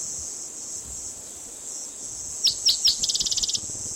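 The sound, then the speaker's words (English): Cicadas drone in a steady high-pitched buzz throughout. Near the end three sharp chirps cut in, followed by a quick run of rapid pulsed chirps. “A lot of cicadas in the background.”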